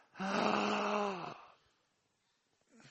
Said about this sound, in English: I want you to take in or draw in a deep breath.